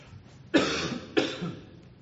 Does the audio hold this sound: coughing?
yes